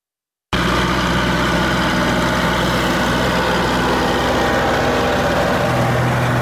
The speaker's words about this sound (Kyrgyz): Эрлан Салжанов төө бурчакты жыйнай турган жабдыкты жасап иштете баштады